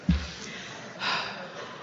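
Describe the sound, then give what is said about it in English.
A deep breath: a brief sharp catch of air, then a longer, soft, breathy rush about a second later. Fairly quiet, with no talk. “Take a deep breath.”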